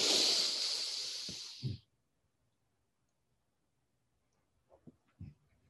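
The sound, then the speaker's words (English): A quick inhaled breath during a guided breathing exercise: one loud, airy rush lasting under two seconds, then near silence broken by a few faint soft clicks. “You can only breathe in this moment. And it's our connection to the place where we are. Breathe in quickly.”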